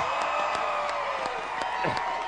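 An enthusiastic crowd at a presidential campaign rally in New Hampshire, a faint, steady murmur of cheering with scattered claps and short whoops rising out of it.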